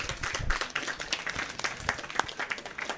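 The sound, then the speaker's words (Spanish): Applause for a guest on a comics talk program, a small group clapping in uneven, distinct claps at a fairly quiet level, with no talk over it. “Antes de que continuemos, más me gustaría presentar un fuerte aplauso por mi buen amigo a Félix Ponce”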